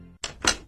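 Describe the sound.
A home door lock being locked produces two short mechanical clunks in quick succession, with the second fuller and slightly longer than the first.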